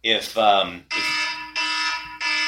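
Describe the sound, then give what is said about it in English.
A kitchen timer alarm going off in three loud, steady, buzzy electronic tones separated by short gaps, preceded by a brief warbling burst. “I know the timer is going to go off here in a second.”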